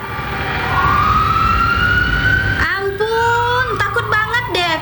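An emergency vehicle siren carrying a patient passes close to other vehicles in traffic. A loud wailing tone climbs steadily, then drops into a lower wail before switching to quick repeated yelping bursts at the end.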